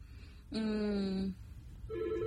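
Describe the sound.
A telephone rings for an incoming caller on a radio call-in show: one buzzy, harmonic ring tone lasting under a second, a brief pause, then a second ring that is cut off.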